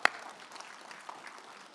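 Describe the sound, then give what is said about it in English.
Applause from a church audience: dense, steady clapping throughout, opening with one sharper clap, with no voices standing out. “So thank you, Point Harbor. You ain't perfect, but you're pretty close. So give yourselves a hand.”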